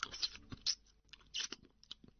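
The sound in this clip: Someone chews and bites into a greasy braised pork knuckle, heard as a few soft, wet, crunchy bursts, faint and alone.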